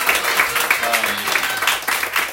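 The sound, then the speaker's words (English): Applause from a concert audience thanking a choir's organiser: a dense, steady patter of clapping with voices mixed in, moderately loud and sustained for the whole stretch. “Yeah, we should all give a round of applause.”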